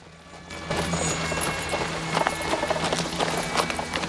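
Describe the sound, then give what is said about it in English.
Horse hooves clip-clop in a steady, rhythmic clatter as the horse pulls a buggy, with a continuous low rumble and hum underneath throughout. “Gordon rides up with Rita at his side.”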